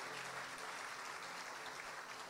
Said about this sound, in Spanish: Así que la iglesia le da un aplauso a todos los que nos ven.